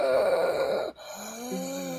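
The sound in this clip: A voice imitates the raspy breathing of a creature opening its cracking jaw wide: a drawn-out, groaning, tonal rasp, then a brief break and a lower, steadier groan.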